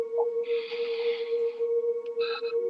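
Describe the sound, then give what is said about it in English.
A person sitting up straight with feet flat on the ground draws a deep breath in, an airy hiss lasting about a second over a steady low hum. A shorter breathy burst follows near the end. “Could you please put your feet flat on the ground and sit up straight? And take a deep breath in”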